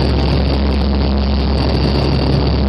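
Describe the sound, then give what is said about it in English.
Inside a C-130 military transport aircraft in flight on a critical care medical transport mission in Afghanistan, the engines give a loud, constant drone. The low rumble and broad hiss run unbroken throughout, with no talk. “A lot of times we're sitting in the side on the C-130, and we have our feet up like this, bracing it so it doesn't bounce as much.”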